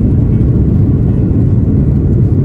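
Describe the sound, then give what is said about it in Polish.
Airbus A330 airliner engines during the takeoff roll on a flight from Copenhagen, heard from aboard as a loud, steady, low rumbling roar with no clear change in pitch over the few seconds and no voices. “A już się rozpędzamy i zaczynamy lot do Chicago.”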